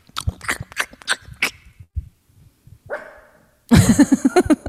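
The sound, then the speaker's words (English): A female dog barking: a few scattered sharp sounds early on, then a loud run of rapid, high-pitched yipping barks at the end. “Go get the dog. Let me see the dog. Who barked? That wasn't her. Yeah, she's barking.”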